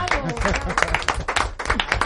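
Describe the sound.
An audience applauds after a performance, with brisk, uneven clapping and a voice calling out over it, all fairly loud.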